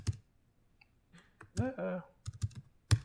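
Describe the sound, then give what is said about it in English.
Sparse keystrokes on a computer keyboard while a short Python script is entered: a few separate clicks and small clusters, with a brief voiced murmur in the middle. “So I can actually type a small Python script. Actually, I'm going to come out of TUI mode because it makes it clearer what's going on.”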